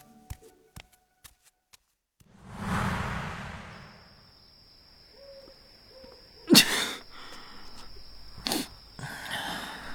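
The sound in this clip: A single sharp sneeze from a man standing outside a palace in cold wind, bursting out after a stretch of soft rustling and a windy whoosh.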